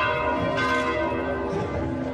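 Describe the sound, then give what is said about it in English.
Church bells ring for Christmas at the Vatican in a dense, continuous peal of many overlapping tones, sustained and fairly loud across the whole stretch with no voices. “Church bells are ringing to celebrate Christmas at the Vatican”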